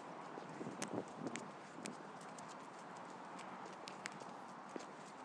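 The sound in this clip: A horse trotting with faint, irregular hoof clip-clops over a steady background hiss. A cluster of sharper hoofbeats comes early, followed by scattered lighter hits.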